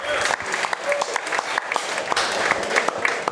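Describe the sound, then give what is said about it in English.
Audience applause from a live event crowd, a dense, steady clatter of many hands clapping at once, sustained at an even loudness throughout. “Let's give it up for Matt at the On Time Experts.”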